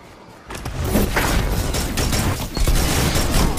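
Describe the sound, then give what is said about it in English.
Shotgun fire in the video game Destiny 2 during a Crucible match: near-silence breaks into a loud, noisy blast, followed by continuous rough, booming gunfire with a second surge partway through. “Bro! He just went up in the air and my shotgun did nothing to him. How did my shotgun not do anything?”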